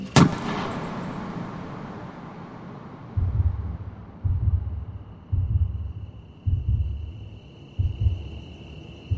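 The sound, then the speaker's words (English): A single sharp gunshot cracks at the start and decays slowly. After a pause, a slow, regular series of low, throbbing thuds follows, like a heartbeat. “A shot was fired, but I felt nothing.”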